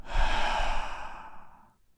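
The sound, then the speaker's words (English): A deep breath let out during a guided relaxation exercise: one long, soft, airy exhale like a sigh that gradually fades to quiet. “Take a deep breath. And let it all go.”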